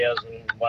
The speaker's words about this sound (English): What's the TikTok? That noise is the blinker.